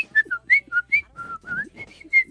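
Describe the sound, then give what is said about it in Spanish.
A person whistles a short tune alone: a quick run of clear, breathy notes that hop up and down in pitch, loud and close, with brief gaps between phrases. “Yo puedo silbar algo, a ver.”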